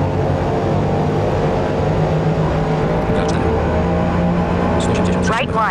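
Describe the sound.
Race car engines roar in the Forza Motorsport video game, a loud, steady drone with sustained harmonic whine as the cars run at nearly 200 km/h.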